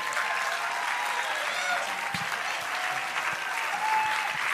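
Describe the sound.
A church audience applauds to welcome a guest speaker forward. The clapping is loud, dense and sustained throughout, with a faint crowd murmur beneath it.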